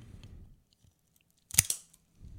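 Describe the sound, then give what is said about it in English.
A cigar is clipped with a Craftsman's Bench double guillotine open-ended cutter: a quick, crisp double snap of the blades in otherwise near silence. “And I am clipping my cigar with my Craftsman's Bench double guillotine open-ended.”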